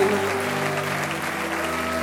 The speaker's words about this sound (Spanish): Recibe todo aplauso de tus hijos en este día, Señor.